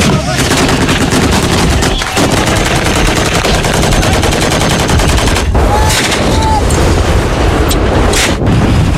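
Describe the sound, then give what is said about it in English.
Gunfire from Yemeni government forces shooting at Houthi fighters, a dense, loud and continuous barrage of rapid shots and bursts. “Video footage released by Yemeni government forces backed by Saudi Arabia of them firing at Iran-aligned Houthi fighters in the country verified by The Guardian.”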